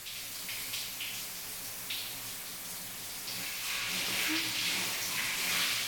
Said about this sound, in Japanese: では、お湯をかけていきますので、熱かったり冷たかったりしたら、おっしゃってください。